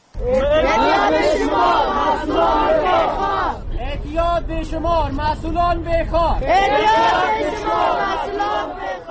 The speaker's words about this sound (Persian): این صدای ده ها فرد معتاد و اعضای جامعه مدنی است که در منطقه پل آرتل کابل جمع شدند